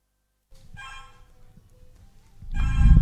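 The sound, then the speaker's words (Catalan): A phone rings with a buzzy, tonal ringtone in two bursts. The second burst is louder and has a low rumble underneath. “ara mos criden per telèfon”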